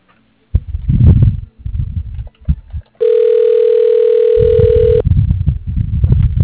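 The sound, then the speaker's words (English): A telephone call is transferred to voicemail. One steady, even ringing tone holds for about two seconds, with muffled low bursts of sound before and after it. “if you can shoot me over to her voicemail, that'd be great.”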